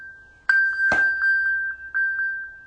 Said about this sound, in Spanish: Está sonando algo aquí. Perdón, es mi iPad.